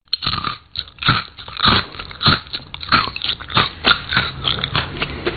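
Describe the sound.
Crisp biting and crunching of coconut-sprinkled crackers, many sharp crunches in a steady chewing rhythm, loud and alone without talk.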